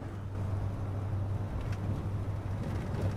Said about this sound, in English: Syla and Luke are driving along a road at night.